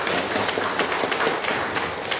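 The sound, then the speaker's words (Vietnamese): An audience applauds as an offering to God during a worship service, with brisk overlapping claps forming a continuous, fairly loud patter throughout. “Chúng ta dâng lên Chúa tràng pháo tay.”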